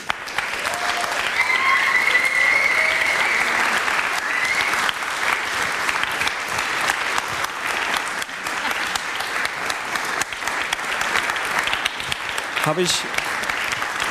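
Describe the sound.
Audience applause for a volunteer organising team at an event: continuous, dense clapping at a steady, fairly loud level throughout, with faint voices mixed in.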